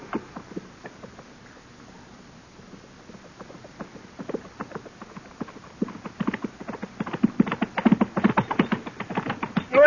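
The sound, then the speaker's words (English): Hoofbeats of a horse and rider approaching in a hurry: many rapid, uneven hoof strikes that grow steadily louder toward the end, with no voices. “From the dust it's raising, somebody sure is riding at us in a hurry.”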